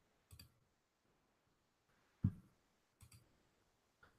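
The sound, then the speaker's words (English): Faint, sharp computer mouse clicks open a new tab in a web browser. Four isolated clicks are spaced irregularly over near-silence, with no talk. “I click on a new tab.”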